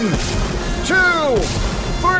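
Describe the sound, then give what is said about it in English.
Booster rockets fire as a sound effect: several loud, blasting bursts, each followed by high whistling tones that slide downward, over a continuous rushing roar. “Fire booster rocket”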